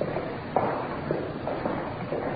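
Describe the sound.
Footsteps climbing the stairs to the main reception of a huge general hospital in Los Angeles, several soft, evenly spaced steps over a steady background hiss.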